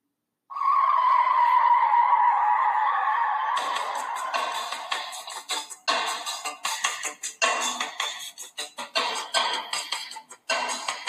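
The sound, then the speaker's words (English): Car tires screech in a sound effect: a loud, steady squeal starts abruptly and holds for about three seconds, then breaks into a rough, crackling run of many short skidding bursts that continues to the end, with no voices. “And the sound of screeching tires is Razor Ramon pulling out of the tournament as Daniel Bryan moves on to round two with a victory.”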